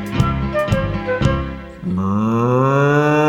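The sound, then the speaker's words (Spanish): A voice imitates a cow mooing in a children's song about a cow lowing in its stable, drawing out one long, sustained tone that rises slightly in pitch after three sharp beats. “Imitemos la vaca de Don Pedro Pablo, esa que muge en el establo.”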